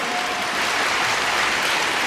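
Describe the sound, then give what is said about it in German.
Audience applause for a speaker at a public appearance, a dense, even patter of many hands clapping at steady loudness throughout, with no voices on top. “Und wieder viel Applaus für diese Margot Käßmann.”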